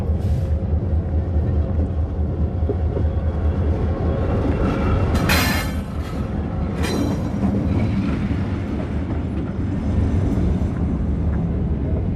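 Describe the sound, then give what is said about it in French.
A desert train moving back onto the main track after a large ore train has passed: a steady, heavy, low rumble throughout, with brief high wheel squeals around the middle. “Là, c'est notre train du désert qui se remet sur les rails. Oui, oui. Après avoir laissé passer le grand minéralier.”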